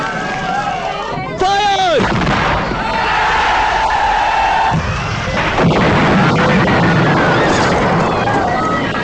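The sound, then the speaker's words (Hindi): Artillery gunfire in a war scene: loud, continuous booming and crackling blasts that form a dense, rumbling wall of noise, with shouting voices over it. “Firing शुरू करो।”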